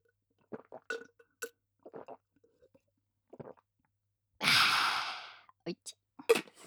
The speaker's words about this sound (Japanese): お酒を飲むシーンとかせっかくだからリアルな音を出したかったので、今回はカップを用意してます。飲みます。